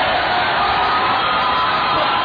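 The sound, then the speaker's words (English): Thunderous applause and cheering from a crowd at a Democratic presidential campaign event in Iowa, a dense, loud, unbroken roar that holds steady throughout. “Thunderous applause.”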